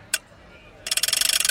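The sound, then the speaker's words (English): A game-show prize wheel, the Wheel of Features, being spun: one sharp click, a short pause, then rapid, steady ratcheting ticks that run on to the end. “Spin the wheel? Spin it. Here we go. Spin it. Here we go.”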